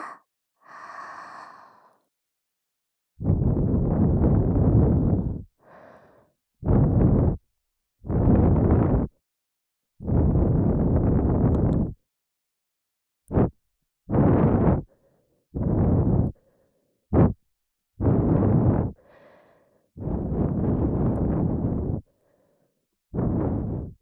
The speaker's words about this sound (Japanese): 左耳を温めるように優しく吐息を繰り込みますね。